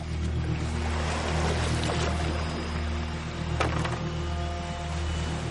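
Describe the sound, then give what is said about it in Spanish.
Water sloshing as a canoe is paddled across a lake toward the shore in daytime, a steady, continuous wash of sound with a low tonal hum running underneath. “Rema con habilidad hasta alcanzar la orilla.”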